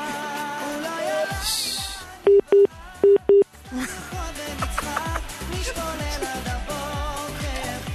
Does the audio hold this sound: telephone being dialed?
yes